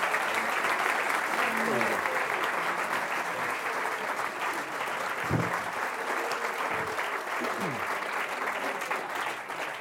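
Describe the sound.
Sustained audience applause welcoming a speaker onto a stage, a loud, dense and steady wash of clapping with a few voices calling out within it.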